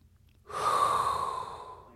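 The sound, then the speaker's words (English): A single deep, hot inhaled breath, an airy hiss that starts abruptly, peaks quickly and then slowly tapers off over about a second and a half, heard alone. “that is inhale a hot breath”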